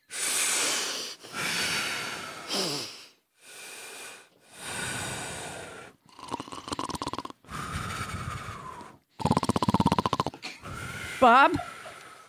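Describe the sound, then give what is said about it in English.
Deep breathing by people sitting up straight with eyes closed: a series of long, loud inhales and exhales separated by short pauses, some rough and snort-like. “just sit up straight, close your eyes, and breathe as deeply as you can”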